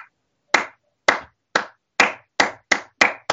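Hands clap eight sharp, separate times, starting slowly and quickening steadily toward the end.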